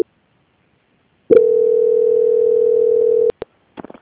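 A steady, single-pitched telephone tone plays for about two seconds as a call is being transferred. It cuts off abruptly and is followed by a few short clicks.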